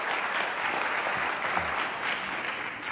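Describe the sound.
Audience applause welcomes a speaker at a presentation on club operations and profitability. Dense, steady clapping fills the whole clip at an even level.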